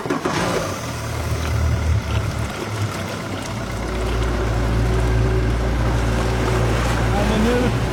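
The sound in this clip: A motorboat engine drones steadily as the boat heads out across the Gullmarsfjorden off Fiskebäckskil toward a seaweed farm. The low hum grows louder and fuller about halfway through, over a wash of water noise.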